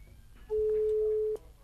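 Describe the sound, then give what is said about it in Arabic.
A telephone tone sounds after a phone line was cut during a call. It is a single steady, mid-pitched beep lasting under a second, standing alone over faint background noise. “السلام عليكم. السلام عليكم. قطع الخط.”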